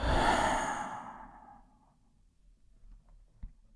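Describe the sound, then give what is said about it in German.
A long, breathy exhale through the mouth after a deep breath, during a guided relaxation exercise: one soft whooshing breath, loudest at the start and fading gradually over about two seconds into quiet. “Atme tief ein und durch den Mund aus.”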